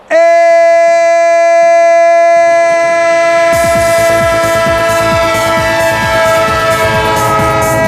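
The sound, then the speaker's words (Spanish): A train horn sounds as a loud, sustained chord in a sports radio jingle, and partway through the rumbling, rhythmic clatter of a moving train joins beneath it and carries on to the end. “Estadio, el tren de Onda Cero, el tren del deporte en vivo”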